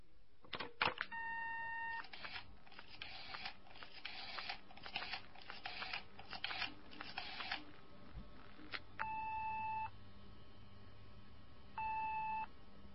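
Telephone call tones during a phone call: a few steady, long electronic beeps separated by gaps, with scattered clicks and rustling noise between them.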